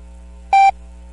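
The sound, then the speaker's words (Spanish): Official time-signal beep from Ecuador's navy oceanographic institute: a single short, bright electronic tone lasting a fraction of a second over a steady low hum. “Al oír el tono serán las 11 horas.”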